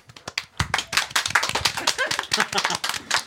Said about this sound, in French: On gagne la première applause de la soirée. Félicitations.